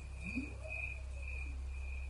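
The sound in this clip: Crickets chirp in a recording, a thin high trill repeating in regular pulses over a low steady hum, quiet and without voices.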